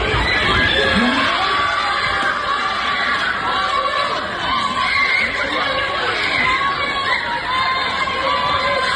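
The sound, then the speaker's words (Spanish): Loud, chaotic shouting and yelling from dozens of people, mostly minors, in a street brawl on the Rambla de Mesa y López in Las Palmas de Gran Canaria; shrill, overlapping voices and cries keep up without a break. “Este es el sonido de una batalla campal, de una reyerta de decenas de personas y en su mayoría menores que participaron, como te digo, en esa trifulca en Mesa y López en la capital Gran Canaria.”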